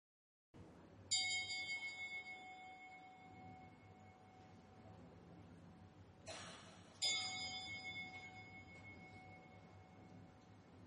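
A temple bell is struck to invite the abbot at a Buddhist ceremony. It rings out twice with long, bright, slowly decaying tones, and a short noisy hit comes just before the second strike.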